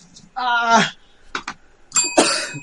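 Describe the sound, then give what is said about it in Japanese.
A small bell rings with a single bright ding near the end, its clear high tone lingering after a few brief vocal sounds. “チーンって鳴らすベル忘れたな今年。”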